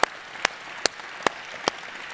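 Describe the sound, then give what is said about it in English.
Hand clapping from a church audience, heard as five sharp, evenly spaced claps over a low, quiet background. “Let's give a hand to everybody who made that decision.”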